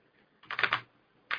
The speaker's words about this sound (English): And let's do an advanced search. And what you could do is type in India